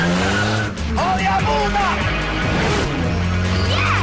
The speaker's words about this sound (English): The Mazda RX-7 and the Honda swerve precariously round a bend.